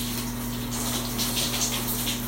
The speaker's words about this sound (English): Me washing my face, so look.